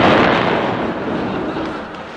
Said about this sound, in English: Look, ma'am! Another atom bomb!